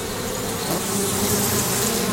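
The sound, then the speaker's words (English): Mosquitoes buzz around someone walking through water and tangled roots, a steady, unbroken insect drone that stays fairly loud throughout, with no voices. “I can't slap the mosquitoes with my hands tied behind my back.”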